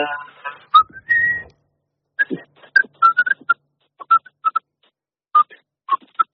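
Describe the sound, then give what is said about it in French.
A person whistles a short tune made of many brief, clear notes in quick groups separated by short pauses, with a slightly longer held note near the start. “J'aime bien siffler, moi. Oui. Ah, vas-y, qu'est-ce que tu nous siffles un petit truc, vite fait?”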